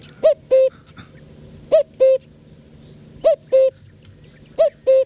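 A common cuckoo calls four times. Each call is a clear two-note 'cuck-oo' with a higher first note and a lower, steady second note, and the calls repeat at even intervals over faint background noise.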